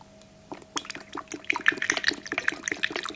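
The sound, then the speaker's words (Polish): Water is poured into a portable porcelain oil burner lit by a tea light. It makes a faint run of small splashes and trickles that begins after a brief quiet and grows busier and brighter toward the end. “Teraz na głowę kominkowi naleję wody. Państwo słucha, pan leje.”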